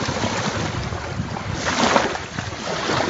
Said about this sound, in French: Comme vous le sentez, nous sommes au bord du lac Édouard, précisément à Nyakakoma.